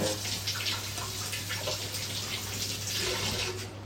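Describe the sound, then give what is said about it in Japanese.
Running water pours steadily over a halved green pepper as its seeds are rinsed away, a soft, even splashing hiss with light irregular spatters throughout. “で半分にして今種を水で流してます”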